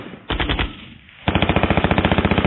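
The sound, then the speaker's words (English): High-caliber machine gun fire, loud: a short burst of about five rapid shots, a brief gap, then a long sustained burst of evenly spaced, hard, rhythmic reports. “it wasn't loud enough to drown out the sound of high-caliber machine gun fire.”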